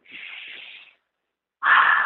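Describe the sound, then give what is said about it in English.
Deep breaths drawn in and let out during a guided meditation: two long, airy rushes of breath with no talking, a first one lasting about a second, then, after a short silence, a louder and fuller second breath. “Do that with me right now. Take a couple of deep breaths.”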